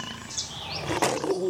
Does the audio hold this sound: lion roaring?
yes